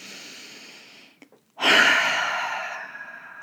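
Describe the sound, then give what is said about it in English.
A deep breath is drawn alone in a guided breathing moment. It comes after a short silence as one long, loud, airy rush that slowly fades. “Can you take a deep breath with me”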